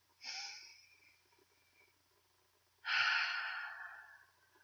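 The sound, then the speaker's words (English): Deep breaths taken without speech: two soft, airy breath sounds, the second louder and longer and fading out slowly, with quiet between them. “let's swim back up to the surface and take a deep breath.”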